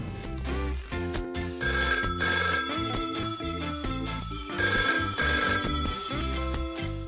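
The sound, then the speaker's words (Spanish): A telephone rings for an incoming call with a bright, melodic ring tone that repeats in steady bursts, loud and continuous throughout, without any talking. “Una llamada de Javier”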